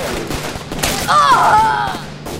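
Gunfire during a dust storm, with an AK-47 rifle among the weapons: a few sharp, loud bursts over a constant rushing roar, with a high whistling whine in the middle.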